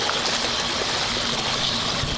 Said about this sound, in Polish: Tutaj mamy sztuczną rzekę. Na czym to polega? Widać w wodzie takie owalne otwory. To są dysze turbiny. Te dysze są ustawiane pod kątem i napędzają tą wodę.